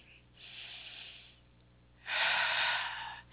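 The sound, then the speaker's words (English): A deep breath drawn during a guided healing meditation, heard as two long, soft, breathy rushes of air with no talking. The second rush is louder and fuller than the first. “We can take deep breaths, so let's take a deep breath now.”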